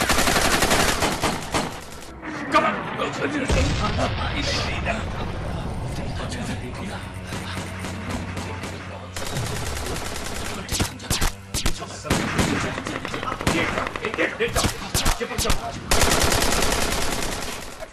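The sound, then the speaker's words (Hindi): Automatic machine gun fire from an enemy position in combat: sustained, loud rapid-fire bursts with dense cracking reports, broken by a few short pauses and a stretch of mechanical clatter. “शत्रु automatic machine gun से गोलियों की बौछार कर रहा था।”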